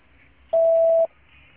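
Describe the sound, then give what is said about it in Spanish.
Voicemail beep sounding after a recorded answering message on a phone line: a single steady mid-pitched tone lasting about half a second, loud and clean, with faint line hiss before and after. “Por favor, deje un mensaje en la casilla de voz después de la señal.”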